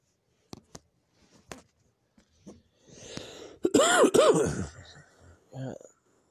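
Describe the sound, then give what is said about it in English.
A person with a chest cold coughs up little phlegm. A few scattered throat sounds lead into a louder, rough hacking burst with strained, groaning voice, then one more short cough near the end. “Now I'm just coughing and not much phlegm's coming up.”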